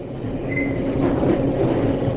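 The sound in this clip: A passenger train running on the rails out of Chicago makes a steady low rumble with faint squealing from the wheels. The level stays even throughout.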